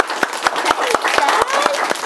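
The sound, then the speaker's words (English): Applause for a newly honored Teacher of the Week: eight crisp, evenly spaced hand claps in a steady rhythm, with voices in the background throughout. “A round of applause for Miss Jones.”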